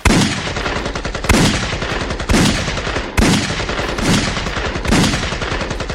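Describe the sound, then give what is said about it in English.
Gunfire from a 21-gun salute at a retirement tribute: loud, rapid rattling volleys that come in repeated bursts, each starting with a sharp crack and then a sustained clatter, with no voices. “I hope nobody was hurt in that fusillade. Is that the correct word of bullets? That barrage of bullets there?”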